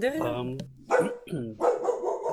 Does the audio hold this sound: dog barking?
yes